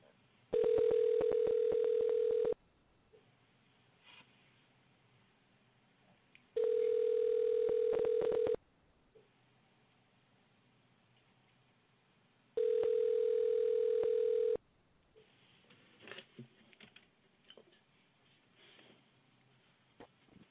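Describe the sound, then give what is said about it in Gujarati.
A telephone ringing tone plays on a call: three evenly spaced steady buzzing rings, each about two seconds long, separated by quiet line noise, with a few faint rustles near the end. “હજી ring જ જાય છે.”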